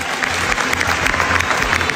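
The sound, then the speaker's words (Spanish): A long ovation from a film festival audience in Venice after a movie premiere: thick, continuous applause, strong and even across the whole stretch, with no talking over it. “Un cuarto de hora de aplausos para los dos actores españoles.”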